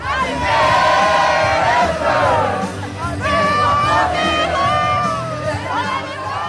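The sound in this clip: A large crowd sings together in chorus at a giant karaoke in Paris. Loud massed voices hold sustained notes all the way through, with slight dips between phrases.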